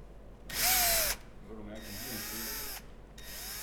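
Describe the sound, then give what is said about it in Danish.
Power screwdriver driving screws into a ceiling, its motor whirring loudly in three bursts, with the first burst the sharpest and brief pauses between them. “Vil du have skruemaskinen, ja? Så, nu skal vi skrue op i loftet.”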